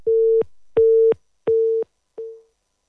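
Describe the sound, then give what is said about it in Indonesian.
A telephone busy tone after a call line is disconnected: four evenly spaced steady beeps at one pitch, the last one short and fading. “Baik, terputus kembali ya line teleponnya.”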